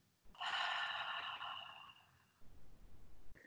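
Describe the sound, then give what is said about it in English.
A slow, deep breath drawn in, loud and airy for about two seconds, easing off into a softer, breathy tail before stopping abruptly. “you breathe in a very deep, long, and circular, slow, circular breath, like this.”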